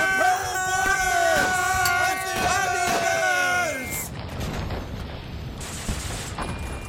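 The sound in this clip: Soldiers fire rifles in battle: a few sharp shots cut through loud shouting male voices, then a dense, rough wash of continued firing noise.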